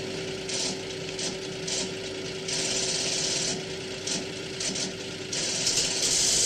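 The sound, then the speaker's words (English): A computing machine whirs and clatters as it runs a programmed card after its knob is turned, with a steady mechanical hum under repeated bursts of chattering noise that start and stop. “I hold in my hand a card, which is programmed for a complex equation. We drop it in, turn the knob.”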